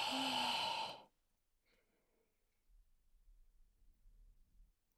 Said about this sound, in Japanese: 大きく息を吸って、吐いて、